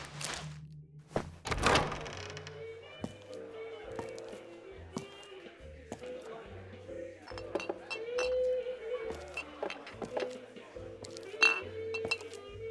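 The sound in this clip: Casino bar ambience with many bright glass clinks and a few heavier thunks, including one sharp knock early on. They are scattered irregularly over a low, steady background hum.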